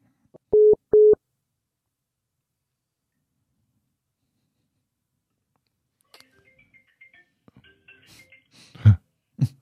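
Two short, clear electronic beeps in quick succession on a phone line after a caller hangs up, followed by a long silence and then scattered faint clicks and rustling noises.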